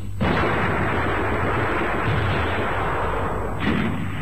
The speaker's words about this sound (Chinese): 集中火力封锁桥面。同志们，我们绝对不能让敌人冲出来。